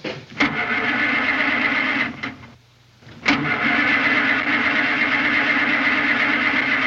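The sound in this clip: A flooded car engine cranks without catching, giving a steady, loud mechanical churn that drops out briefly near the middle and then resumes just as strongly.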